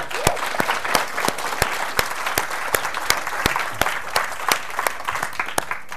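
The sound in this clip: An audience at the Edinburgh literary festival applauds warmly to welcome an author. Dense, even clapping with crisp individual claps standing out carries on steadily throughout.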